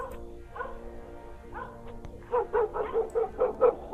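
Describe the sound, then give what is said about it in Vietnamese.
A dog barks in a village at night. After a quieter, muffled stretch, a rapid series of sharp barks and yips runs through the second half. “Tiếng chó sủa vẫn cứ quanh quẩn ở bên tai của bọn họ, làm cho bọn họ không có yên lòng”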